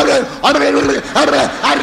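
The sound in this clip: A human voice imitates a dog barking in a joke about a dog: a few throaty, yelping woofs in quick succession, loud and alone.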